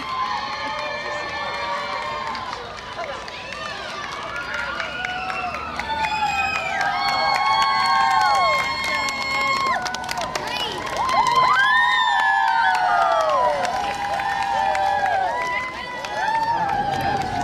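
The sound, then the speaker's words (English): Schoolchildren cheer and shout in greeting along Stoke Newington Church Street: many high young voices in a continuous, lively din of whoops and calls that swells and stays loud throughout. “We're walking down Stoke Newington Church Street, and there seems to be the whole of the school population seems to be out to greet us.”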